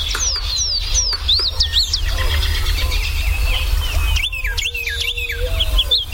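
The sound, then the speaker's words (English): Birds singing in early spring as they return and set up territories: many bright chirps and quick whistled phrases, some rising and falling, overlap continuously above a steady low rumble. “the serenade of birds early in the spring, when birds are first returning and begin setting up territories”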